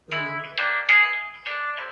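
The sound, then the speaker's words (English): A mobile phone ringing during a sermon: a bright electronic ringtone plays a few stepped melodic notes, fairly loud and on its own. “I'm sorry about my phone, that's not God.”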